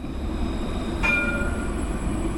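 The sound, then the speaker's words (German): A yellow city tram rolls along in Mulhouse with a faint, steady low rumble, broken near the middle by a brief, high metallic squeal of wheels. “Natürlich kann das gelbe Tram das Problem der Stadt nicht einfach wegrollen. Aber es rollt weiter, bald sogar aus Mühlhausen”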